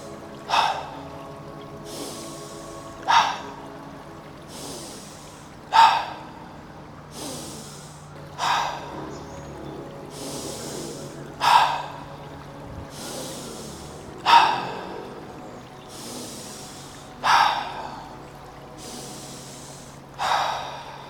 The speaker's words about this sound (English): you take an inhale through the nose. You're just standing here, take an inhale. You let out a sigh through the mouth. You do 9 of these before you leave.